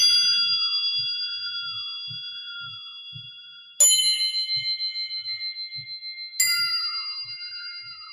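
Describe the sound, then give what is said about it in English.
Crotales played on a timpani ring out in three bright, high metallic strikes that sustain and slowly fade, while a soft, low drum resonance pulses beneath them. “Crotales on timp. This is fun. I think we all know what this sounds like.”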